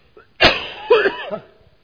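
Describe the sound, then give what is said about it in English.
A person coughing: a couple of harsh, throaty bursts in quick succession, loud and rough, trailing off into a faint rasp, with no talk. “I'm going to cough all day.”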